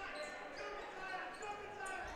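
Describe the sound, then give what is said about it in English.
A basketball being dribbled on the court during a PIAA 5A boys state playoff game, the bounces faint beneath an announcer's talk and steady crowd noise. “Rebound, Yanoski gets it to Smith. He's got the dribble.”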